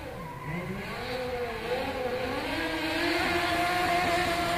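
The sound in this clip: A modified car drives up fast, its engine note rising in pitch as the revs climb and growing steadily louder throughout, with no voices.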